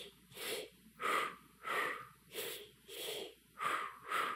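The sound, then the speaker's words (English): Short, shallow breaths demonstrated as a breathing technique, repeating in an even, quick rhythm of roughly seven or eight puffs, each brief and breathy, moderately quiet, with no talk. “So this breath is just a short, shallow one.”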